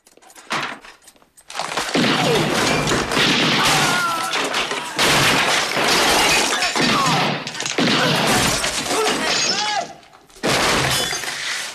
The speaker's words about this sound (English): There's a shootout.